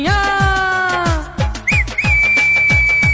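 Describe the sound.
Whistling in a Punjabi song: a high, pure note wavers briefly and then holds steady to the end, over a driving, evenly spaced drumbeat.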